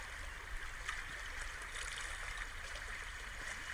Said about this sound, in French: La caresse des vagues qui se déposent sur la plage vient enrouler doucement autour de nos chevilles